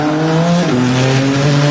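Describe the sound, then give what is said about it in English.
Race cars on a street circuit in Washington, D.C., during the Freedom 250 Grand Prix: a loud, sustained engine whine whose pitch shifts partway through, with no voices. “It is race day in the district. The Capitol streets turned into a racetrack for the Freedom 250 Grand Prix.”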